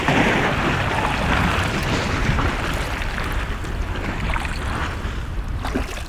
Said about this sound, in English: Wind is blowing me toward the iceberg.